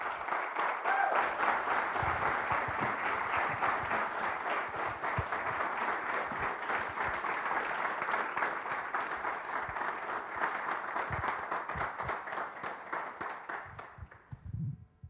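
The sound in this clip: An audience applauds to welcome a guest, with dense, steady clapping sustained for about fourteen seconds before it thins out and stops.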